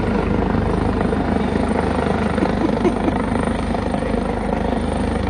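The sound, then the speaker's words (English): A helicopter lands behind a press conference, its loud, steady rotor and engine roar filling the whole clip at an unchanging, dense level. “all of a sudden in the background, Robert Kraft's chopper starts to land right behind him.”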